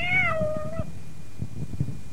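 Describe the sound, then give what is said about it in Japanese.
A cat gives a single clear meow, a fairly high, tonal call that slides slightly downward and fades, followed by faint low background noise. “確か猫がいますよね。 ええ。 今日はいませんね。 いえ、いますよ。あなたの後ろに。”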